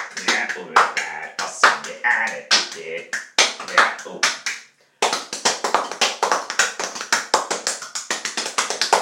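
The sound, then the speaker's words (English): Rhythmic slaps of hands on a bare belly played as percussion: many sharp, punchy hits in a quick steady groove, with a brief pause partway through before the pattern resumes. “Welcome to another version, another episode of Stomach Percussion.”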